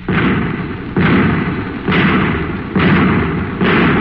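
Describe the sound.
Five anti-tank shells fire in turn: five heavy, booming blasts, evenly spaced and loud, each rumbling down before the next one hits.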